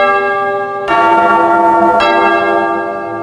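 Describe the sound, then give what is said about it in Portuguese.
A church bell rung by a sacristan sounds a loud, sustained ringing tone that carries through the whole clip, with a couple of fresh strikes renewing it before it slowly fades. “Toca o sino, sacristão, de novo.”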